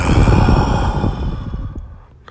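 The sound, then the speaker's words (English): A deep breath is let out as one long, breathy, fairly loud exhale that gradually fades away. “Stop. Take a deep breath.”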